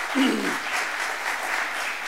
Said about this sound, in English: She does so much for the community. She deserves the applause.